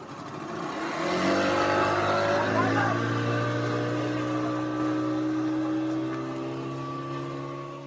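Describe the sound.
A motorboat engine drones during a boat ride on a reservoir. The steady, loud hum rises in pitch early on, then holds an even tone throughout.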